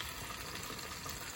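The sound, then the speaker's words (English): Chicken sizzling as it cooks, a quiet, continuous hiss with a soft crackling texture and no pauses or talking. “So anyways, just to give you something to watch, I guess I'm cooking my food. This is a chicken I got yesterday.”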